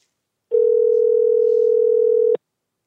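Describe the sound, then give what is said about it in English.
A telephone dial tone as a call is placed: a single steady, mid-pitched hum held for about two seconds on its own, then cut off abruptly with a short click. “So let's hit dial.”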